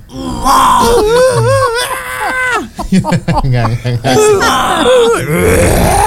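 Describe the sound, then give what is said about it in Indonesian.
A voice imitating a baby crying with a gravelly, growling tone. The wailing cries waver up and down in pitch and are loud and strained, with rough, groaning breaks and no clear words. “begitu nangis juga kan udah ngegro. Gimana sih kalau nangis ngegro?”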